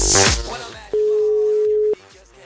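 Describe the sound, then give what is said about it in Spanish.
An unanswered phone call's ringing tone: after a brief burst of noise, a single steady, level tone holds for about a second, then cuts off. “Bueno, no contesta el teléfono.”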